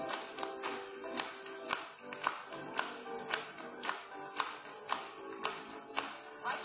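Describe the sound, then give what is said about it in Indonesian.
Audience clapping for a performer in steady, evenly spaced beats, many claps in a regular rhythm, faint throughout. “Mari bertepuk tangan kepadanya sekali lagi.”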